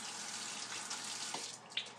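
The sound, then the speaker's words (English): Tap water running through a filter into a water bottle, a steady, faint rushing stream that holds even throughout. “we're going to take the cap off and start filling the water up here with filling the bottle up with water.”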